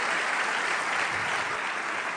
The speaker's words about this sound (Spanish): Le damos un aplauso al que vive para siempre.